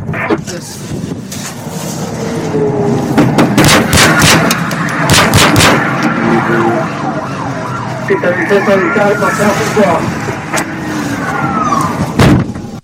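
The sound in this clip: Several sharp gunshots crack out as a suspect fires at deputies during a pursuit near an interstate median, clustered in a quick burst, while emergency sirens wail loudly and continuously, with a final single shot near the end.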